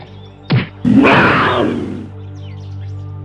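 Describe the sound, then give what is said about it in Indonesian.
A stone thrown at a tiger: a brief sharp knock, then a longer, loud noisy rush that fades out. “akan aku lempar harimau itu dengan batu.”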